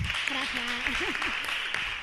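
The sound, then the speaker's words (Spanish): Applause from an audience after a talk about the Rohingya: a dense, steady clatter of clapping throughout, with a voice speaking over it. “Bueno, pues muchas gracias, Raki. Un aplauso para Raki.”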